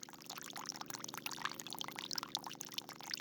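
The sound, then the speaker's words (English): A small hose trickles Colorado River water onto the roots of a tree, making a faint, continuous soft splashing patter with no break. “At its base is a small hose with a trickle of Colorado River water targeted at its roots.”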